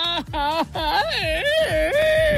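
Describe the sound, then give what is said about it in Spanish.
A person cries loudly over a lost national football team match in a few drawn-out, wailing sobs. The pitch slides up and down through each wail, with short breaks between them. “¡No, hombre, mi compa! ¡Deje de llorar!”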